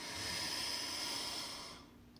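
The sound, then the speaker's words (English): A deep breath is drawn in through the nose as a soft, airy hiss lasting under two seconds before fading out, faint and unaccompanied. “breathe in through our nose.”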